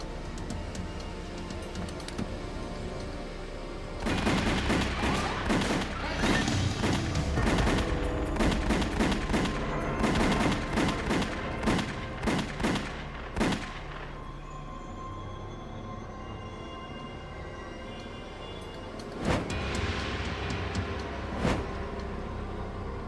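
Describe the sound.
Gunfire as shooters open up on two men beside a car that is being parked during a mob hit, rapid bursts of loud, sharp shots in a long volley, a pause, then a shorter second burst.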